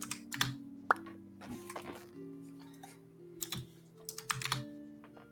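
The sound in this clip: Fingers type on a computer keyboard during an online tabletop game session on Roll20: soft, irregular keystroke clicks with a few sharper clacks, while a steady low tone sits underneath.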